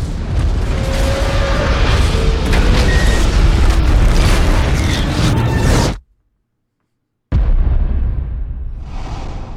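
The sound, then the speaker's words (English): A bomb explodes in a film scene, a loud roaring blast that rumbles for about six seconds, cuts abruptly to silence, then bursts back as a second roar that slowly thins out. “The bomb's going off.”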